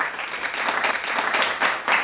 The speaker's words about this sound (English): I had to give you your hand claps, Archbishop.